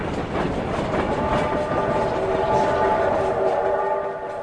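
A train rumbles and clatters as it slows while arriving at a platform. The steady, heavy rolling noise brings in sustained tonal whines during the second half.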